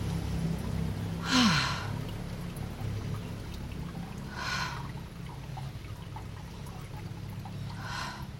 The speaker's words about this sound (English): Let's come into three nice deep inhales and exhales